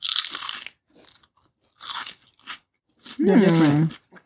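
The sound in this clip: Honey butter potato chips crunch in a few crisp bursts of biting and chewing, with short pauses between them, followed by a brief hummed vocal sound.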